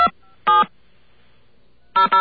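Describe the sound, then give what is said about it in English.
Telephone dialing tones calling a voicemail number on the 868 exchange: a few short, sharp electronic beeps separated by silence, with the last two close together. “we're gonna call the voicemail number for the 868 exchange.”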